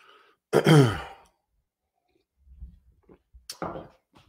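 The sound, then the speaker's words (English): A man clears his throat with a harsh, throaty burst, followed after a pause by faint low knocks and a second shorter rasping clear. No talk is heard. “Just making sure the throat's taken care of.”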